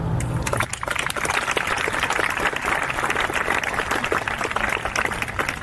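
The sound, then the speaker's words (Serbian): Applause opens a festival in Belgrade, a dense, even patter of many hands clapping that holds steady for the whole stretch. “Ja bih hteo da otvorimo festival jednim aplauzom za sve goste koji nisu mogli da dođu zbog pandemije COVID-19.”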